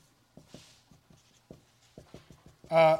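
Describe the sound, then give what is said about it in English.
Pen writing something down on paper: a run of short, soft scratchy strokes in an uneven rhythm, and a voice starts speaking right at the end. “Should I write that down? Okay, Jezreel.”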